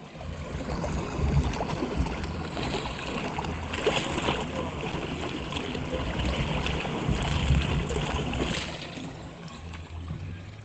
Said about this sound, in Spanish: el bello mar, el bello sonido del mar desde un pequeño muellecito en el barrio Lleras.